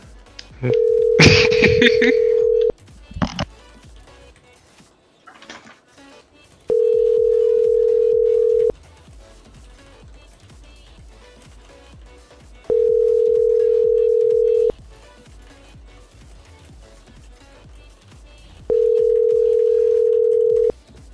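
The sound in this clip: Ringback tones sound while a phone call is placed to call someone back: four long, steady, identical tones spaced evenly apart, with a short burst of clicks and dial beeps near the start.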